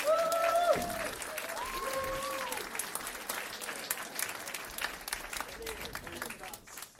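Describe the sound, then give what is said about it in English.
An audience applauds the evening's host at a Friday night show in Norris Point, the clapping loud and dense at first, then settling into a steady, slightly thinner wash of claps that carries on to the end. “If you put your hands together for Miss Penny McIsaac.”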